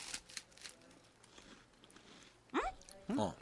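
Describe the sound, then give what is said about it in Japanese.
Chewing of a crunchy cheese-flavoured snack: a few crisp crunching bites early on, followed by short voiced sounds near the end. “食べようよ。 いただきます。 はい、どうぞ。”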